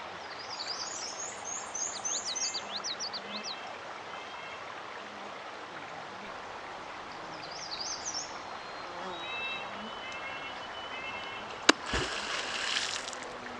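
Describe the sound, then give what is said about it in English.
One sharp, loud slap of a beaver's tail on the water of a Northwoods wetland pond, followed by a short burst of splashing; birds call faintly earlier, over a steady soft wash of background noise. “There's a beaver watching us right now. That tail smack lets other beavers in the area know that we're here and potentially dangerous.”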